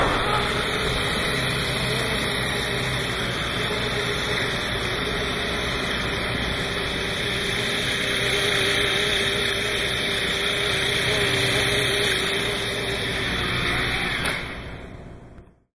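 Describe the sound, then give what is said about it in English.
A cyclocopter, a new flying vehicle with paddle-wheel-like spinning blades, gives off a steady whirring drone with a sustained high whine. It holds constant for about fourteen seconds, then drops away quickly at the end. “So the sound you just heard is a sound of a new kind of flying vehicle called a cyclocopter.”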